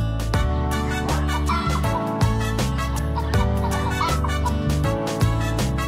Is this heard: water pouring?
no